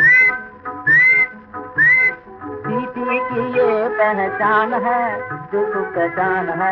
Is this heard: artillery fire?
no